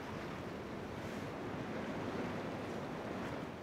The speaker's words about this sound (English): Well, it's getting choppy now, and the wind is coming up.